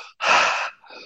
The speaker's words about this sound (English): we're going to do a last 10 breaths real quick. It will sound like this.